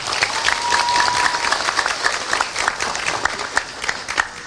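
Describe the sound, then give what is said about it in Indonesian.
Audience applause at a talk, loose and uneven, with sharp individual claps standing out from the general patter. It rises and falls in loudness over several seconds. “Tepuk tangan untuk Indonesia.”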